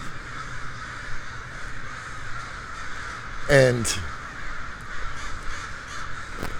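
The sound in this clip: Crows caw in a city square, with a brief harsh burst of cawing midway through while a person talks steadily throughout.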